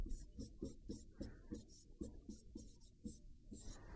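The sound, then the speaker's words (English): Pen strokes scratch quietly while a maths derivation about the derivative of a definite integral is written out. Many short, rhythmic scraping strokes follow one another at an even pace. “So I just write that.”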